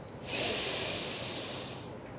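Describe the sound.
A deep inhale taken during an Om chanting practice: one long, airy, hissing breath that begins abruptly, swells, then slowly thins out over nearly two seconds, heard alone.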